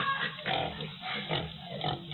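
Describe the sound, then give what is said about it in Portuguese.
Grunting of a fat castrated hog on a muddy farm: a rough, steady run of low snorting grunts in a few swelling bursts, fairly loud and with no talk. “Esse capadão tá gordo.”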